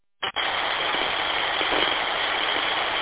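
A car engine runs while driving, a steady muffled hum that starts abruptly and holds at an even level throughout, with no voices.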